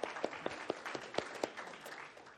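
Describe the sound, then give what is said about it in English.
Audience applause at a church gathering: fairly soft clapping in which a few sharper claps stand out in the opening seconds before it thins into a quieter patter. “And yeah, you can clap for them.”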